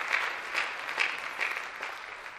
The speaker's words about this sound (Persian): مرسی تشویقش کن. خیلی تشویقش کن.